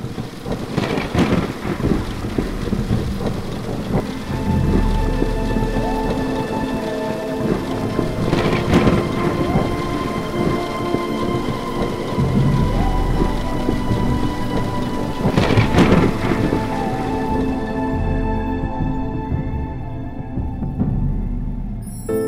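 Steady, dense rain pours through the whole stretch as a thunderstorm rolls overhead, with a few loud thunder rumbles swelling out of the downpour and fading back into the hiss of falling drops.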